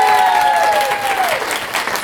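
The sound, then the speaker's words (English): Applause from a room full of people at a live studio recording, a loud, dense and steady wash of clapping that holds evenly for about two seconds with no voices over it. “we are joined by a whole room full of people. Room full of people, clap, make yourself known.”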